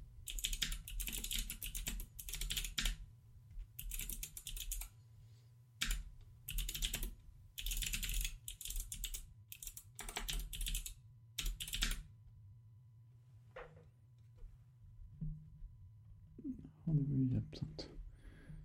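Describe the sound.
Quick bursts of keystrokes on a computer keyboard, typed in short clusters separated by pauses, fairly quiet, with people talking at times.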